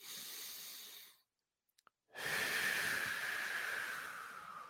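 A deep breath taken during a relaxation exercise: a soft, airy inhale, a short silent pause, then a longer, louder hissing exhale, with no other sound.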